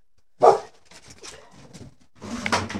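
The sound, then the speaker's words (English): A dog barks once sharply and loudly near the start, followed by quieter scuffling sounds and a louder, noisy burst of activity toward the end. “That was just a dog.”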